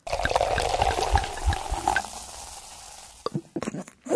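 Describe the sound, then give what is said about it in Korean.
Cola poured into a glass with ice gives a soft fizzing hiss dotted with light ice clinks, followed by a few sharper knocks and clinks toward the end. “콜라 따른 소리 주세요.”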